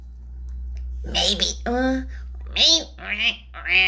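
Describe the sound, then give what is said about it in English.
A voice imitating a duck, making a few nasal, buzzy quacks in short bursts separated by brief pauses, over a low steady hum. “Maybe the duck sounds like this.”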